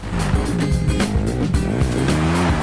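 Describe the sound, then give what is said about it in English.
A dirt bike engine roars continuously as it races along a dirt track, loud and unbroken, with repeated quick swoops in pitch as the throttle rises and falls. “The bike dude flies through the air and lands expertly on a dirt track and burns past tropical trees and dry grasses.”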